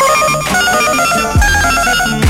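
Telephone ringing as a caller's line is about to be answered: a loud, bright electronic ring of repeating harmonic tones that keeps sounding steadily through the whole moment.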